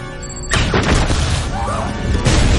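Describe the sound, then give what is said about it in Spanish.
Explosions set off by a detonator tear along one side of a room: a sudden loud blast after a brief quieter lead-in, then a sustained crashing rumble that surges again near the end. “Las explosiones se extienden por un lateral de la sala.”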